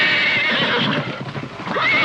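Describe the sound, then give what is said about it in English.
A young little horse whinnies in bright, high-pitched neighs that rise out of a steady background hiss. “Look at this little horse! Yeah, he's adorable.”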